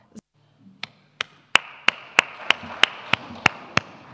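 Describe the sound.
Church audience clapping together, starting with a few scattered claps that settle into a steady, evenly spaced run of sharp claps in unison.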